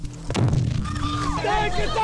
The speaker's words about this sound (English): a bomb exploded in a Catholic community centre. The building collapsed like a pack of cards on top of a group of 40 or 50 people.